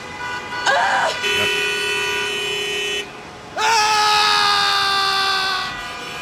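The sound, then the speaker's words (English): Car horns blare over highway traffic on I-95 in Miami, picked up by a microphone outside a window. Two long, loud horn blasts, the second the longer, sound over a steady rumble of passing vehicles. “That's actual audio. Yeah, we just put a mic outside of our window, and that's 95 right now.”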